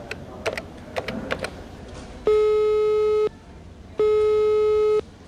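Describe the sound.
A phone is dialed with a few quick, light keypad clicks, then two long, steady, loud electronic call tones of about one second each are separated by a short pause.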